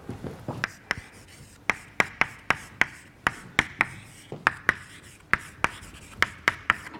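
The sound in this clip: Writing out an equation: many short, crisp tapping strokes in an uneven rhythm, fairly quiet, with no talk.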